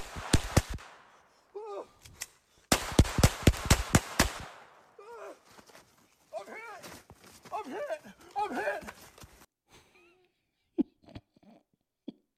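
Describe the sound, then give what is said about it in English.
Gunshots during a shooting drill: a quick volley of sharp cracks at the start, then a longer, dense string of shots around the third and fourth seconds, with people shouting between and after. “Run! Shots fired! Shots fired! Shots fired! Shots fired!”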